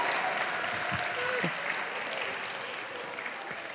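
Audience applause welcoming a guest, a dance-off runner-up champion, to a sermon gathering: steady, fairly faint clapping that holds at an even level, with a few low thumps, and slowly tapers toward the end.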